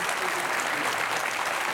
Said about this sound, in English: Welcome our close friend, Dr. Tony Evans, to Life Today.